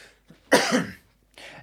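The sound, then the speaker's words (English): A person gives one loud, harsh cough with brief, fainter throaty sounds just before and after it. “I'm coughing”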